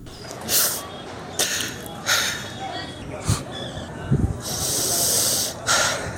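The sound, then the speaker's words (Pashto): A tribal elder sobs in grief after a deadly attack, with a series of breathy, shuddering sobs and sharp intakes of breath, some sniffs among them, at moderate loudness. “دا د هسکې مینې د جودري د کلیدي او سپینګيري د سلګو غږ دی.”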